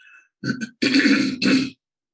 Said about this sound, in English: Pardon my throat clearing.